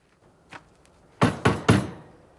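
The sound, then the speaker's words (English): Knocking on a screen door on a porch: three sharp, loud raps in quick, even succession, after a faint single tap a moment earlier. “He steps onto the porch and knocks at the screen door.”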